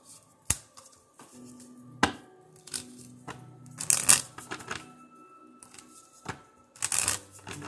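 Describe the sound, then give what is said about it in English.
Angel abundance oracle cards are shuffled by hand, with a series of crisp riffles, flicks and sharp snaps in an irregular rhythm broken by short pauses. “I'm going to get our abundance cards, our angel abundance cards out.”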